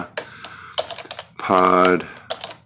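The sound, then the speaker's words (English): Rapid typing on a computer keyboard: many crisp, irregular key clicks that run through the whole clip, with a short voiced sound in the middle. “I used the wrong keyboard. I got to remember to use the right keyboard.”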